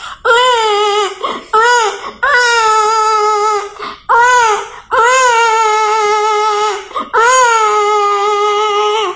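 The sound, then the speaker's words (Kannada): A young child cries at night in several long, loud, wailing bursts separated by short gasping breaks. Each cry holds a steady, high-pitched tone. “ಆನಂತರ ಅಲ್ಲೇ ನಮ್ಮ ಅಕ್ಕನ ಮಗು ರಾತ್ರಿ ಅಳುತ್ತಿತ್ತು.”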